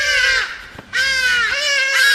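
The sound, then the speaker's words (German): A hadeda ibis in South Africa gives a few loud, harsh, nasal caw-like cries in quick succession, each trailing slightly downward at the end. The calls are heard alone, without talk. “Hadidas rufen gerne und ausdauernd, vor allem dann, wenn sie morgens so ab 3 oder 3:30 ihre Nester verlassen”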